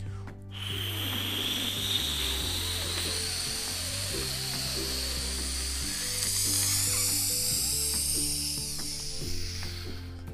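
A time-travel takeoff sound effect: a synthetic whirring whoosh climbs in pitch over a pulsing low bass pattern, loud and sustained for about ten seconds without talk.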